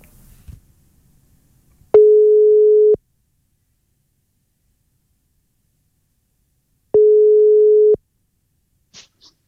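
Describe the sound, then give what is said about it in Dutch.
Telephone line tones while a call is placed: two steady, mid-pitched beeps, each about one second long, separated by several seconds of silence, with no talk. “gaan nu bellen met Frits Zwijghuizen”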